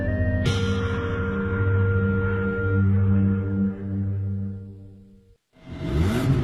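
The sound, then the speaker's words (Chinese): A car engine revs at full throttle with a loud, steady droning roar and a strong harmonic tone. It cuts off near the end, then a brief burst of rushing, whooshing noise follows. “加足马力，准备进入潮流座驾快车通道。”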